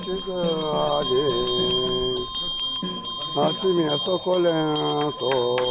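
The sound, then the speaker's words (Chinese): A Yi bimo priest shakes a ritual bell at the entrance of a Yi village near Mile. It jingles in rapid, rhythmic strikes throughout, under a loud, wavering chanting voice. “刚到村口，毕摩摇着铃铛为宾客祈福。”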